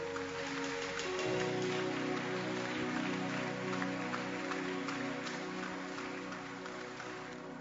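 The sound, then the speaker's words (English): A church audience claps hands together in a dense, continuous patter over sustained musical tones that run steadily throughout. “Clap your hands.”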